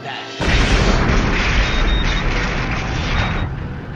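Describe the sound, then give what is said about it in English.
A heavy sci-fi blast as an alien energy weapon strikes a starship: a loud, dense roaring boom bursts in abruptly after a brief quieter hiss and holds as a steady, rumbling wash to the end. “And then the Romulan weapon hits.”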